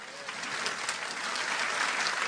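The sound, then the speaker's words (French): Audience applause during a French church sermon: dense, steady clapping that holds at an even level for the whole short stretch, with no distinct voices rising above it. “Oui, tu peux applaudir, pas moi, mais le Seigneur.”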